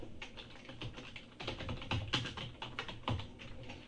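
Typing on a computer keyboard: many quick, quiet keystrokes in an uneven rhythm as a device name is entered.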